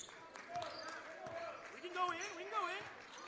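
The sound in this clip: A basketball dribbled on a gym floor during a boys high school game, Zeeland West at Holland. A few soft bounces sound under a commentator's steady play-by-play talk.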